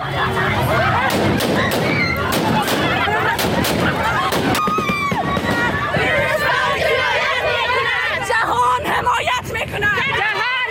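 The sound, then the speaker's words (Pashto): Gunshots fired into the air to disperse a women's protest in Kabul, with several sharp cracks cutting through loud crowd babble, shouting and chatter that continue throughout. “دا په کابل کې د خزو هغه اعتراض و چې طالبانو په هوایي ډزو تیتو پرک کړ.”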